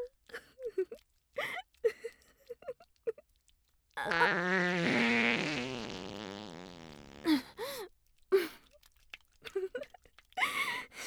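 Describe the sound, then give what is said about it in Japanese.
A long, drawn-out fart of about three seconds, a buzzy, wavering tone, set between short bursts of speech and breathing. “失礼いたしました。またおならが出てしまいましたわ。”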